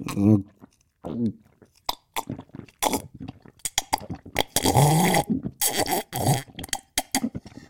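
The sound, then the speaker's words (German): Loud slurping, gulping and burp-like mouth noises come from someone drinking cocoa made from Suchard Express powder, in many irregular bursts separated by short pauses. “Und jetzt trinke ich einen schönen Kakao mit Pulver von Suchard Express.”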